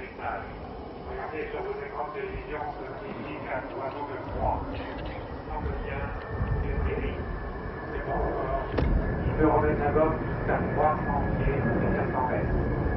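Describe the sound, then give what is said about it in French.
An airplane flying a simulated landing approach, coming in a little high rather than touching down, gives a steady, muffled engine drone that swells slightly, while people talk over it throughout. “je crois qu'il va faire un atterrissage simulé. Oui, effectivement, il semble un peu haut pour un atterrissage réel.”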